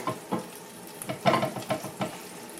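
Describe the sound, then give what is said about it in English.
Food frying in a pan is stirred. Several short scraping strokes come in an uneven rhythm over a soft, continuous sizzle. “And I'm going to stir it up a little bit.”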